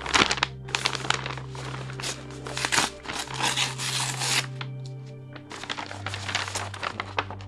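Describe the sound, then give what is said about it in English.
Crinkling and tearing of a paper envelope being opened, a run of dry, rustling bursts spread over several seconds with a steady low hum underneath. “And I've avoided even looking at this envelope, but I guess I have to open it.”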